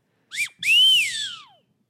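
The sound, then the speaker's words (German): A nose whistle is played in two breathy, pure tones. The first is a short chirp that rises and falls. The second is a longer note that swoops up, holds high and then glides steadily down, with nothing else around it. “Das heißt, es ist eine Pfeife. Das hält man sich an die Nase und unter den Mund und dann kann man...”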